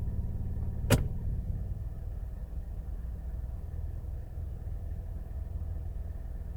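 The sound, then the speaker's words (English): A car engine runs steadily with a low, even, diesel-like rumble, interrupted once near the start by a single sharp click. It stays smooth and unchanging throughout, with no voices. “Back to drive. Kind of sounds like a diesel.”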